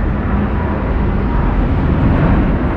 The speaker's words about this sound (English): Two passenger jets operated by British Airways and Virgin Atlantic took off in concert, setting off in unison on the 3,500-mile route to New York's JFK